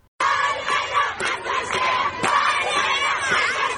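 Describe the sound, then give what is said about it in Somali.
Protest crowd demonstrating against land grabbing in Mogadishu, Somalia: dense, loud shouting and chanting from many voices, sustained throughout after an abrupt start. “dibad bax looga soo horjeedo dhulboobka murtad gurguurta iyo kooxdiisa ayaa ka dhacay magaalada Muqdisho ee caasimadda dalka Soomaaliya”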